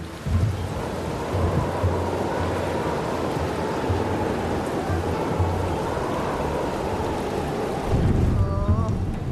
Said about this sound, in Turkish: nasıl bir yağmur böyle? Neyse, yarın açar herhalde.